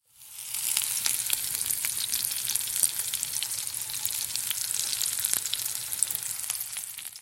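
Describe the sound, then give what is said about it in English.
Food sizzling and frying in a pan, a steady, loud hiss dense with tiny pops and crackles that runs unbroken from start to finish, with no voices over it. “This was the sound of something sizzling and like frying up.”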